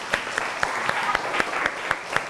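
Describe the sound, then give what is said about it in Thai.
Children applaud a classmate in class with steady, brisk group clapping, a lively patter of many hands with regular accented beats, moderately loud and without a break. “เก่งมากปรบมือเพื่อนลูก”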